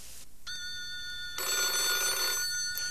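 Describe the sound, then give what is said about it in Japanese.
A telephone rings with a steady electronic tone of bright, sustained harmonic pitches. The ring grows louder through the middle and continues to the end, with no talk. “あ、電話。”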